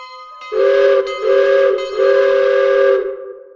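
Train whistle on a departing tourist railway train in São Lourenço, Minas Gerais, sounding three loud blasts, the third longest, over a steady lower tone that continues before and after.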